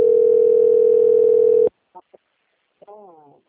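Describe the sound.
A steady, continuous telephone dial tone plays while a call is being placed. It holds one even pitch, then cuts off abruptly and is followed by brief short sounds and a moment of voice.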